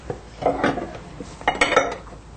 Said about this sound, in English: Now I'll take this off, and there's probably some chocolate powder left, so we can mix that in with the spatula.